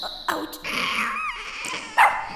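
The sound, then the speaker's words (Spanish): Cries of a baby dinosaur in a cartoon: a few high, whimpering yelps and squeaky, dog-like whines, the longest drawn out in the middle, with no talk. “Pero, ¿qué? Un bebé dinosaurio.”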